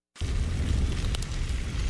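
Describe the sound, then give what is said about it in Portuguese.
Meat cuts grilling on a parrilla, a steady, loud sizzling hiss with crackles that starts abruptly and holds throughout. “Esse é o som da parrilha do pobre Juan, de onde saem cortes assados no ponto perfeito.”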